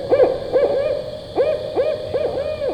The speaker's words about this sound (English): it happened to be the barred owl, the one with... It's got 8 hoots. It sounds like this.